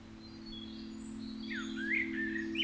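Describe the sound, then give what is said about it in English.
Faint spring birdsong: thin, high chirps and quick trills that grow busier toward the end, set over a steady low hum. “I can hear the birds singing and see the sun and feel its warmth.”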